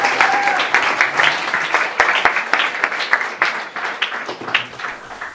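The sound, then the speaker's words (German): Audience applause after a church service performance, a sustained wash of clapping with sharp individual claps standing out, steady and fairly loud throughout, with a few faint voices mixed in. “Gebt ihm einen Applaus, das hat er doch wunderbar gemacht.”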